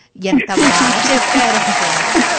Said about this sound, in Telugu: ఇప్పుడు వెయ్యాలండి నిజంగా క్లాప్స్ అండి.